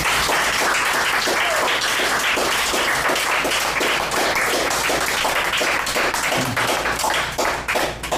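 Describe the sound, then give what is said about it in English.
Audience applause at a poetry reading: dense, steady clapping from many hands that holds at an even level throughout and thins slightly at the very end. “As we give Abby another hand”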